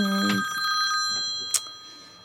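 A mobile phone ringing with a steady electronic ringtone that runs throughout, with one brief click partway through.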